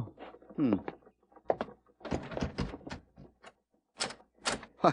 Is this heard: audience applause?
no

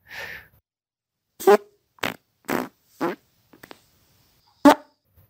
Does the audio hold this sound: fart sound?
yes

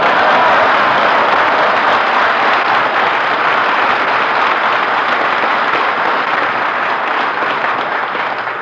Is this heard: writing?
no

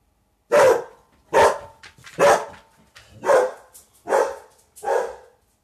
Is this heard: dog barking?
yes

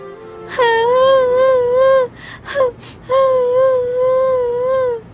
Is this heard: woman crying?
yes

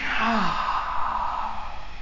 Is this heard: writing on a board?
no

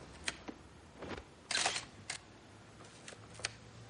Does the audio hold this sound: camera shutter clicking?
yes

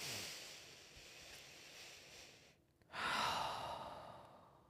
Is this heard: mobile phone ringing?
no

